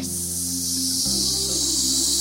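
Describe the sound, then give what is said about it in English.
A voice imitates a snake's hiss with one long, steady, breathy hiss that runs the whole clip. Low sustained tones sit underneath and shift partway through. “He listened for the sound of the snake. Do you know the sound that a snake makes?”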